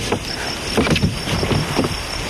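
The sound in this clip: Water sloshes against a boat under steady wind noise, with a few soft splashing pulses rising and falling over an even, rushing background and no voices.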